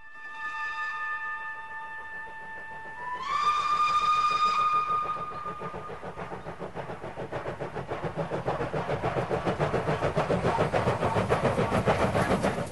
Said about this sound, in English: A steam train powers through the countryside.